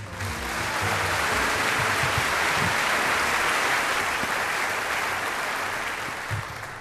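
Warm audience applause greeting a jazz pianist, a dense, even wash of clapping that builds quickly at the start and tapers slightly near the end.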